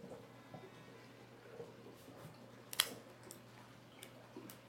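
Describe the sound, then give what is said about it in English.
A Padron 1964 Anniversary cigar cut with a Cassetti dual cutter on its V-cut blade gives a single sharp, brief snap midway through an otherwise faint, quiet stretch. “Let's go ahead and give it a cut here and see what the cold draw is like. And I am using my Cassetti dual cutter on the V-cut”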